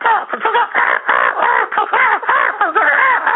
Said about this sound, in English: I start to hear a whole chorus of crows, you know, and they were super excited and agitated.